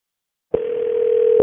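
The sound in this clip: Steady telephone dial tone on a single pitch while calling back. It cuts in sharply after about half a second of silence and holds unbroken, loud and even, to the end.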